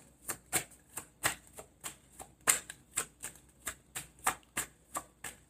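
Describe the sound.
Tarot cards being shuffled and drawn, heard as a steady, even series of many crisp, snapping card clicks, alone and fairly loud.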